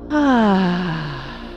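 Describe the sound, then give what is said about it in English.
An audible exhale through the mouth during a breathing exercise: one voiced, sighing breath that starts loud, slides steadily down in pitch and fades over about a second and a half. “Inhale through the nose, fill, fill, fill. Exhale out the mouth now.”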